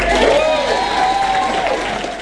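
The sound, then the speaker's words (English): Standing ovation at a Labour Party event in New Plymouth as Chris Hipkins is welcomed: dense, steady applause and crowd noise with voices mixed in. It stays loud throughout and eases slightly at the end. “introduces her boss to a standing ovation. You might know him as Chippy. I know him well as, well, also Chippy. Please give a warm new Plymouth welcome to Chris Hipkins.”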